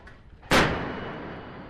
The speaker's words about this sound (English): We're on the Yellow Sea off northern China aboard the Chinese Navy frigate Luoyang as 80mm guns open up on a target almost 3 kilometres away.